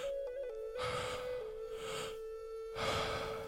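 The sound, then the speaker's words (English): Slow, deep inhalations during a guided breathwork session: two soft, airy breaths drawn in, fairly faint, over a steady sustained musical tone. “Let the breath even go deeper now. Take in 10% more air.”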